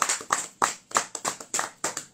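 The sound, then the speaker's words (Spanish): Hand claps for performers on a radio show: about seven crisp, evenly spaced claps roughly a third of a second apart, loud and alone with no talk. “Tenemos a Jency 80 aquí, un aplauso para ambas”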